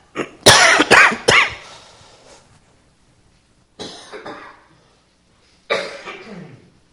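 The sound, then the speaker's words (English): Coughing in a church audience booms through microphones: a harsh cluster of three loud coughs, then two weaker, separate coughs after long silent pauses. “microphones that are able to expand upon your coughing and blast the congregation.”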